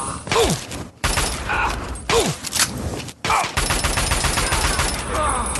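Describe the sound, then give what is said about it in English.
Gunfire aimed at raiders in a video game with targeting-mode combat: a few sharp, loud bursts and rattling shots over dense game noise, with mechanical clatter between them. “Let's shoot him in the torso. Much higher hit chance.”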